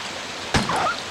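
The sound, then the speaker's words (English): Running water spilling like a small waterfall in the video game Resident Evil 2 makes a steady, even hiss, broken by one brief thump midway through. “Right, now, because the water's running here, I can't get past it. It's like a little waterfall”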